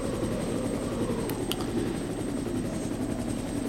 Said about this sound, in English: just looking up at the helicopter flying over.